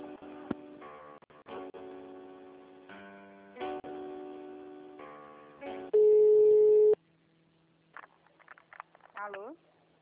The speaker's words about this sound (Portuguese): A ligação voltou, aqui ela está ocupada.